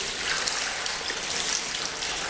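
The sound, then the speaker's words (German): Cold water runs from the back of the knee down over the lower leg as a steady, even splashing hiss that continues without a break. “Das lasse ich da jetzt einfach von der Kniekehle nach unten laufen, damit sich da so eine richtig schöne Wasserplatte bilden kann, die den ganzen Unterschenkel ummantelt.”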